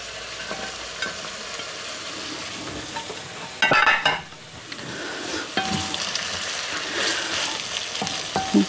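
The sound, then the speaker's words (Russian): Onion and carrot sizzle as they fry in a pan, with a steady hiss broken by stirring scrapes and a louder, brighter burst of frying midway. No one speaks. “Лук пожарился. Добавляем морковь.”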